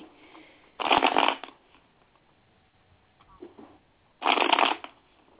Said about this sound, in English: Okay, I'll pull a card for you. Let me see.